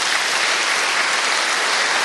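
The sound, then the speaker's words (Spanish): A church audience applauding: dense, steady clapping holds at an even level throughout with no voices over it. “Un aplauso a los tres padres.”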